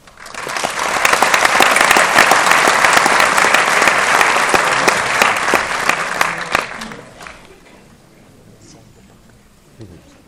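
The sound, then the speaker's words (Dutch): Loud, sustained applause from a conference audience welcoming a speaker. It builds quickly, holds steady for about six seconds, then dies away into near quiet. “Dank u voor uw aandacht en vraag een welkomstapplaus voor Piet Kommers.”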